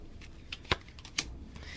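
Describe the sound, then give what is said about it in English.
A Lenormand card deck is handled and shuffled, giving a few crisp, papery snaps and flicks at irregular intervals over a quiet background. “So let me just pull my little Lenormand deck.”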